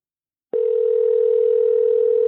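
A telephone dial tone starts abruptly after a short silence and holds as a steady, unbroken electronic hum while a call is placed.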